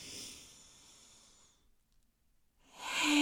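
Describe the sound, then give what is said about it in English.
Soft breathing in through the nose, a faint hissy airflow that fades into a short pause before another, stronger breath rises at the end. “Okay, so we're going to go in through the nose with a breath.”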